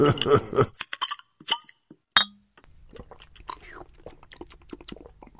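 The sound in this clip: A person talks briefly, then a beer glass gives a single sharp clink, followed by soft, faint crackling and sipping sounds of drinking.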